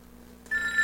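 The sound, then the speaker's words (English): A mobile phone ringtone cuts in abruptly about halfway through, a steady, bright electronic tone with high overtones that keeps ringing to the end of the short clip, with no voices. “That's my phone. We're going to hit ignore on that.”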